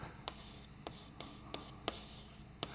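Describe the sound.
Writing on a board during a lecture: six short, faint scratchy strokes spaced irregularly over a quiet background.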